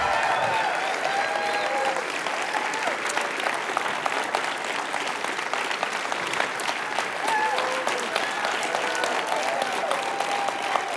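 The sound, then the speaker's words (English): A standing church audience applauds to welcome a pastor, with sustained, dense clapping that holds at an even level, mixed with scattered voices and calls. “I want to ask you to stand to your feet, put your hands together, and give a great big Calvary welcome to Pastor Bill McGinnis as he comes to bring God's Word today.”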